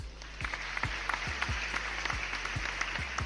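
Applause welcoming a guest to a hip-hop interview show: a steady wash of clapping over a regular, low, thumping beat, with no voices.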